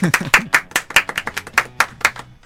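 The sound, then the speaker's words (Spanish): A few people applaud a prize winner at a book giveaway: many sharp, uneven hand claps with short gaps between them, loud and alone. “Aplausos, no cerca del micrófono, por favor.”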